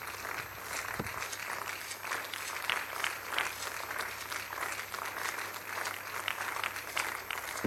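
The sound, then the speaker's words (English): Church audience clapping in praise of Jesus during a morning service, a faint, even patter of many hands that continues without pause for the whole stretch. “Give Jesus a big hand of praise as we make welcome a resident pastor to bless us this morning.”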